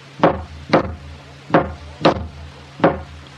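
Hammer blows drive a nail, sharp wooden knocks falling in a steady rhythm that groups roughly into pairs of strikes, each loud and percussive with brief decay, over a low background hum.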